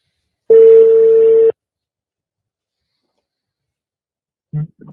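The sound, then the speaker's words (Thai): Telephone ringback tone on a call placed through a Bluetooth-connected phone: one steady, mid-pitched tone lasting about a second, then several seconds of silence before a brief faint sound at the end. “อ่างั้นเดี๋ยวผมขออนุญาตโทรหาคุณอังคณาเลยละกันนะครับ”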